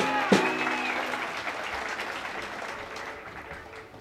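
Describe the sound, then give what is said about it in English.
Audience applause for a banjo player being introduced at a live music show, with a dense, steady clapping that starts with a sharp burst and slowly tapers off. “Next in line is our banjo player who was with us here last year. Nice hand for Al Mundy.”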